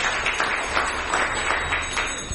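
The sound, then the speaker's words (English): Applause from a gathering in a temple room, thanking the organiser of a course: a continuous wash of many hands clapping, fairly even in loudness, with slight surges in the rhythm. “maybe you can all give him a round of applause for the effort of putting this course together.”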